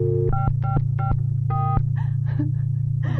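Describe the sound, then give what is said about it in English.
Telephone keypad dialing tones: a quick series of about five short, bright two-pitch beeps over a steady low hum, followed by a few fainter clicks and tonal blips. “The old number. I'm dialing the old number.”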